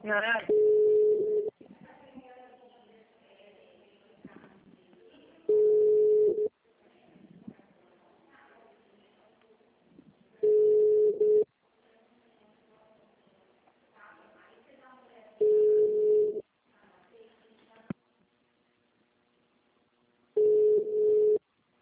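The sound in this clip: A telephone call is transferred but goes unanswered: five long, level ringback tones sound at even intervals of about five seconds, with quieter sounds and faint talk between them.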